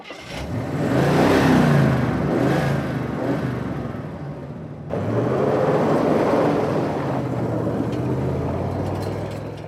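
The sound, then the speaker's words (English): Engine of a Cadillac car driving away and picking up speed while towing a glider: a loud, continuous roar with a low rumble and rising whine, dipping briefly midway before surging back and holding steady. “drives away in the Cadillac, picking up speed and pulling the glider behind him.”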